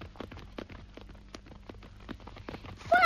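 Horse hooves clip-clop as the horse carries a rider, with many quick, crisp knocks in a steady trotting rhythm over a faint low rumble. The sound grows louder in the final moment.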